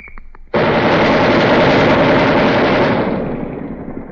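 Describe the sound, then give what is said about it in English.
A twin-barrel machine gun fires 20 millimeter rounds at a weapons demonstration in one loud, sustained burst. The rapid, unbroken roar of shots starts abruptly after a brief quiet moment and eases slightly toward the end. “they've just taken out the 60 caliber which was fired, and they're going to throw the 20 millimeter into it, and we'll hear that in a second.”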